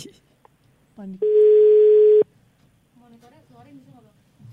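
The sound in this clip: A single steady ringing tone on an outgoing phone call, a plain mid-pitched beep lasting about a second, followed by people talking softly.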